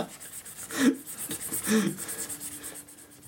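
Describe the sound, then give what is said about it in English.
A pen or pencil drawing on paper, with faint scratchy, rubbing strokes in two brief swells over a quiet background. “Dude, my hands, they weren't made for drawing.”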